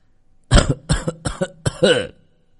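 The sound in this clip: A man who had been lying unconscious coughs: a rapid series of several harsh, loud bursts, the last one rougher and more voiced, with near silence before and after.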